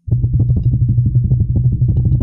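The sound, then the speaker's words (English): A drum roll sound effect gives a rapid, continuous rumble of low hits for about two seconds, loud and steady from start to finish, with nothing else heard alongside it. “Drum roll, please.”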